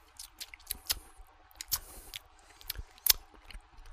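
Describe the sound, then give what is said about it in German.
Biting and chewing a sour candy, bitten at the head: many soft, wet crunches and squishes in an irregular rhythm, with a few sharper crackling bites standing out, no talk. “Ich habe den Kopf wahrscheinlich nicht weit genug abgebissen. Moment. Oh, das ist aber interessant. Ja, jetzt komme ich auch dran.”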